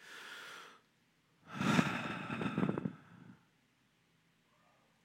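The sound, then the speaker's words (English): A church audience takes a deep breath together and lets it out as prayer begins: a shorter breathy rush of inhaling, a pause, then a longer, louder collective exhale that trails off into quiet. “I want to ask you to take in a deep breath and to let it out as we begin to pray.”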